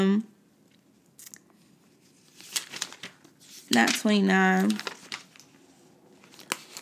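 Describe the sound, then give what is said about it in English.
Pages of a physical paper Bible turning, producing several crisp rustles and crinkles, with a voice speaking briefly in the middle. “Let me find it. Y'all hear my tech pages turning. I'm trying to use my physical Bible.”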